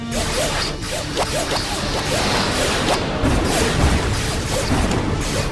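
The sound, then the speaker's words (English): Spaceship weapons fire back at a cloaked mid-range bomber in a sci-fi space battle: many sharp whooshing, whip-like energy blasts over a dense, continuous rumbling bed, with heavier crashing hits toward the end. “Weapons are charged. Returning fire.”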